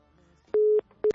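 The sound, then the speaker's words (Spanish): A telephone busy tone follows a call that has been cut off, with steady mid-pitched beeps pulsing on and off in short even bursts. “Algo pasa, o sea, justo cuando apenas la agarro, corta la llamada.”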